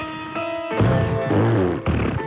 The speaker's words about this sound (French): Oh non, attends, s'il te plaît, j'ai pas fini de péter